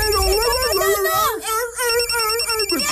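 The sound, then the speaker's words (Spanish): An incoming phone call rings with a bright, warbling electronic ringtone that plays steadily and loudly through all three seconds. “¿Qué es eso? Una llamada telefónica.”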